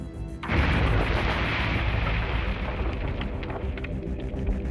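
A Takata airbag inflator bursting in a crash test, a sudden loud blast followed by a sustained, dense roaring rumble that fades slowly over several seconds.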